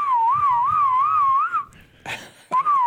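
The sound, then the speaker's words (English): Two men whistling: a loud, wavering tune with a quick warble holds for about a second and a half, drops away briefly amid faint noise, then resumes near the end. “Two men whistling whistling the day away right there.”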